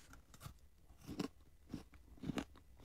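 Someone bites into a purple sweet potato dessert with shaved ice inside, making a few soft, separate crunches with quiet gaps between them.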